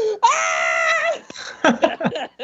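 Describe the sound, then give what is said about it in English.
A voice imitates the loudest scream of a character being sucked into a tornado. The scream is drawn out and held at a high, strained pitch, then gives way to a few short, breathy vocal bursts. “Like the fucking loudest scream, and then he gets sucked off into the fucking tornado.”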